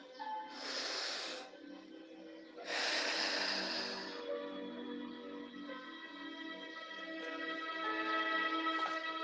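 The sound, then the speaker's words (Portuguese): A person breathing in deeply during a guided breathing exercise, two long, airy inhalations over soft sustained background music. “inspira.”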